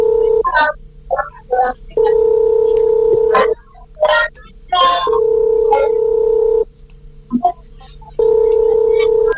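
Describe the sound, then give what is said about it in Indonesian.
Steady telephone tone sounds while a call is placed, coming in long, even bursts separated by short gaps, with brief voice-like bursts over it. “Oke, kita akan coba ya. Semoga diangkat. Kita akan coba hubungi ayahnya sebentar.”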